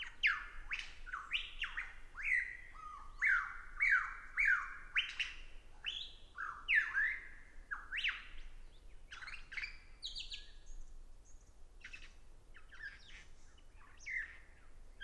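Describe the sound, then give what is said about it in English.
A lyrebird calls during its courtship display in a long, fairly faint run of varied song bursts, with rapid sweeping whistles, chirps and trilled phrases, broken by short pauses and with no talk. “Watching this lyrebird's complex, ornate, self-aggrandizing display”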